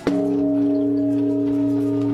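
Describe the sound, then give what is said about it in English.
A Japanese temple bell struck once at New Year in Tokyo. One sharp strike opens into a deep, steady humming ring whose sustained tones barely fade. “In Tokyo, a temple bell marked the moment.”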